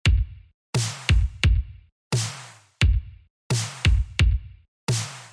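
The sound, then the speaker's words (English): Kick and snare drum samples play a pattern from an 80s-style loop for a vaporwave track: ten punchy hits, deep booming kicks mixed with sharp, bright snares, in a steady repeating rhythm, alone with no other instruments. “Next, we're going to line up these samples with the kick and snare pattern in our main 80s loop. By itself, that pattern sounds like this.”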